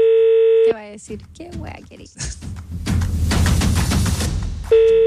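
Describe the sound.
Ringback tone of an outgoing phone call to a relative, a steady buzzing tone heard twice, at the start and again at the end, with louder voices and noise in between.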